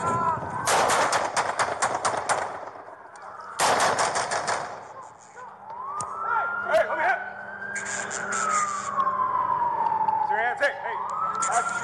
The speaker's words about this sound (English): Shots fired.